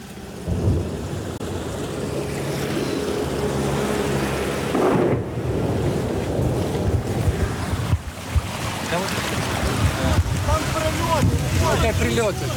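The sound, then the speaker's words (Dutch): Small boats passing on floodwater during an evacuation of residents, with oil floating on the water: a loud, continuous low engine rumble and rushing, wind-like noise, with voices at times. “Het ene na het andere bootje vaart langs.”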